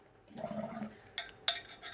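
Water bubbles and gurgles through a bong during a hit, a low churning burble that fades, followed by two sharp, bright clicks.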